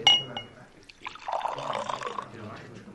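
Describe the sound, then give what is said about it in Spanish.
Whisky is poured into a glass at a bar. A brief glass clink comes first, followed by a soft, steady trickle of pouring liquid that runs quietly to the end. “el barman se apresuró a servirle un whisky”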